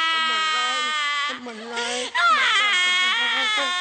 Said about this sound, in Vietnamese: Đừng khóc mình, đừng khóc.